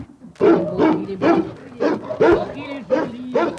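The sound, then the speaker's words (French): Barking from a Belgian Malinois shepherd dog: a loud series of many short, sharp barks in quick succession, mixed with voices. “C'est un chien berger, il est magnifique. Un berger malinois, oui. Un berger malinois, il est splendide.”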